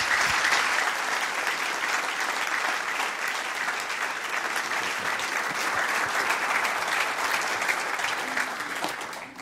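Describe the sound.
An audience applauds to welcome a guest speaker: dense, steady clapping from many hands that holds for about nine seconds and tapers slightly at the end.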